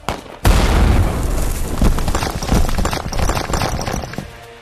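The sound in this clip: An explosive charge detonated by a gunshot beside a rock erupts in a sudden, very loud boom. A long, rough, rumbling roar follows and slowly thins out.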